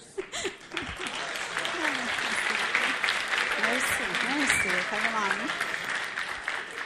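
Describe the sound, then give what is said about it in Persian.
Audience applause: dense, steady clapping that fills the whole stretch, with voices and a few shouts rising over it. “دوباره دست بزنی تا زهره برسه.”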